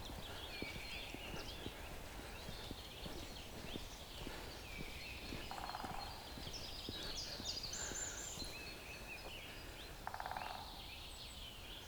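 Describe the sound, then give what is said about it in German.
Woodpecker pecking at dead wood in a forest of standing dead trees: many sharp, dry taps in a loose, steady rhythm run through the whole clip, with birds calling faintly in the background. “Oh, ein Specht.”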